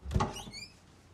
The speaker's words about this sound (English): Next, she opens a cupboard.